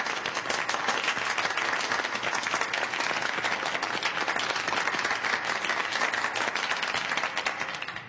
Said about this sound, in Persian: اوانگ تسو تبریک میگم. تشویق کنید.